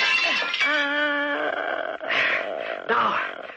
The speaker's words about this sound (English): I'm going to smash that mirror.